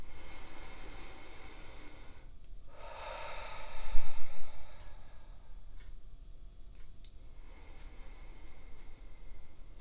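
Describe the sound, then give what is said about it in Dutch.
Slow, deep breathing during a guided relaxation exercise, air drawn in through the nose and pushed out through the mouth. A few soft breaths rise over a steady hiss, with one fuller exhale standing out in the middle. “En adem een paar keer diep in en uit. In door je neus en uit door je mond.”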